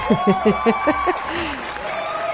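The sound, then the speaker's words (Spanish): Audience applause forms a soft, continuous wash, with a short run of rhythmic voiced bursts like laughter or talk over it at the start. “un saludo para todas las solteras, un aplauso, qué bueno, qué bueno.”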